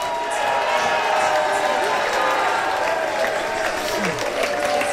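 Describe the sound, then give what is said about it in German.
Fans cheer and applaud in the closing phase of the Switzerland–Norway match, a loud, unbroken wash of crowd noise lasting the whole five seconds with voices mixed into the roar. “Der Jubel, wir kann ihn nicht mehr bremsen. Die Schweiz siegt, ganz klar. Und grosse Freude.”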